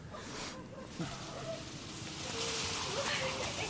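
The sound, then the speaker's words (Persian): Steady rain hisses throughout, a dense continuous patter that grows slightly louder toward the end while people speak over it. “به جان مجب بارونی میا وای همه لباس همو خیز شده”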